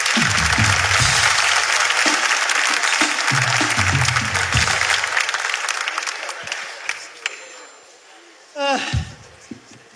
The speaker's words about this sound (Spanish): Un aplauso